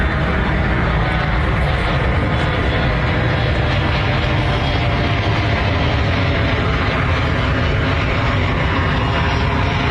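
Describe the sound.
Loud, steady roar of an airplane flying over the landing zone of SeaTac Airport, a dense rumble that fills the whole stretch without a break.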